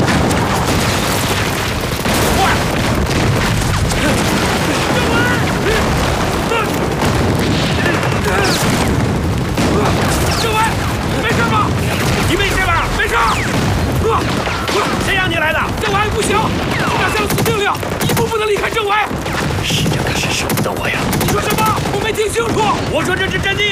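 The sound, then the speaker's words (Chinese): Heavy artillery bombardment with gunfire as a division shells Ganziyuan in wartime: a loud, unbroken barrage of booms and crackling shots, with voices mixed into the din. “李云恒的53师已经向甘子园发起猛烈炮击了。”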